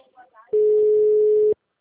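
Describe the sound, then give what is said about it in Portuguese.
A telephone ringback tone sounds while a call is being placed. A faint voice comes first, then one steady mid-pitched beep lasts about a second and cuts off into silence. “vou ligar pra essas contas devolvidas”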